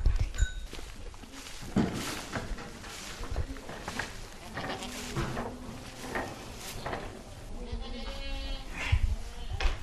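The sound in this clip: Goats bleating in a milking parlour next to the goat barn and waiting area, with many overlapping bleats of varying pitch, some loud and nasal, continuing throughout over steady background noise.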